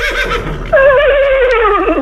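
A mare neighs: after a brief low rustle, a loud, wavering whinny begins and holds steadily, its pitch trembling and sagging slightly toward the end.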